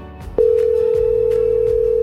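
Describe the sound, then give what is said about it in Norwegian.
A telephone tone on an outgoing call: a single steady, pitched tone starts abruptly and holds unbroken, loud and clear to the end. “Nå skal vi ringe til en av de som har meldt seg på. En telefon til Mjøndalen.”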